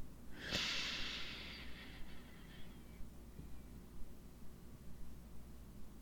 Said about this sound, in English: Come on, let's take that breath all the way down to the feet.